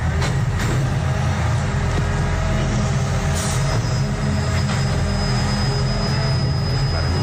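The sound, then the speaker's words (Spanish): An old garbage truck collects a cardboard recycling container in the city at night, with a loud, steady low engine and hydraulic rumble throughout. A thin high squeal sets in about halfway and holds to the end. “Un camión de recogida de basura. ¿Seguro? Te diría que es de cartón, precisamente, o sea, es recogida de contenedor de cartón”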